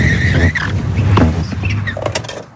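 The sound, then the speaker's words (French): A car brakes hard with its tyres skidding during an emergency stop-and-swerve exercise at a driving course: a loud, continuous, rough screech and roar of rubber that holds steady, then fades out at the end. “Voilà, et quand le feu passe au rouge, pas avant, tu freines.”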